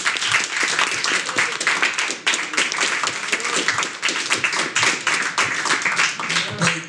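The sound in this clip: An audience at a live show at Koi breaks into dense, sustained clapping. Voices rise through the steady wash of hands.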